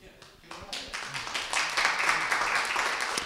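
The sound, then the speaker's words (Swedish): Audience applause at a porridge party as a guest is welcomed, starting with a few scattered claps and quickly building into fuller, steady clapping that stays strong to the end. “Han fick applåder direkt fast han inte ens har börjat.”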